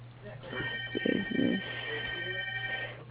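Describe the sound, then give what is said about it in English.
A telephone rings in the background of a phone call, with steady electronic ring tones running under a conversation between people. “Probably hear my phone ringing too.”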